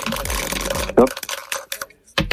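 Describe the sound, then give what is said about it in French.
Dice rolled in a board game clatter as a quick, uneven series of sharp clicks and taps, following a brief moment of speech. “En attendant, je vais vous inviter à lancer les dés.”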